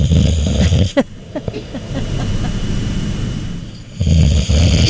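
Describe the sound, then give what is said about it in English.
Heavy, rasping snoring with loud, rough inhalations at the start and end and quieter breathing and small snorts between them. “Snoring. Here's scary snoring.”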